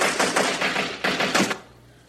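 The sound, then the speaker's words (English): Gunshots fired in a rapid string of sharp, loud cracks that overlap into bursts for about a second and a half, then stop abruptly, leaving only a faint low hum. “I shoot people that don't shut up.”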